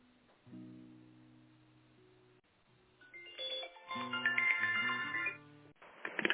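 An electronic telephone ringtone plays over a narrow, thin-sounding phone line while a call is being transferred. Sustained low tones give way to a busier, louder melodic passage of bright chiming notes.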